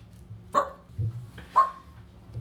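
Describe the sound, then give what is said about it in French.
A dog barks twice, two short, sharp barks about a second apart, fairly faint over a steady low background hum. “On va peut-être entendre le chien de temps en temps.”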